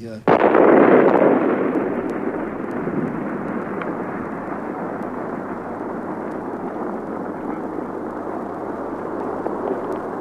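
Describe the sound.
An explosion from the first atomic bomb test: a sudden loud blast breaks into a long, heavy roaring rumble that holds steady for about ten seconds, easing only slightly.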